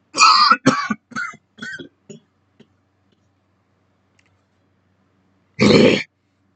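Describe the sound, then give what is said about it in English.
A person clears their throat and coughs in a quick series of about five harsh bursts that weaken over two seconds. After a silence comes one final loud cough. “Sorry. Something was stuck in my throat.”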